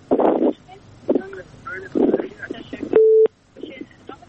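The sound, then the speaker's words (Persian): A single short, steady electronic tone sounds as a listener's phone call to a radio show is cut off. It comes between stretches of talk from the host. “میشنوین صدای من؟ تماسشون قطع شده، شنونده دیگر میگیریم.”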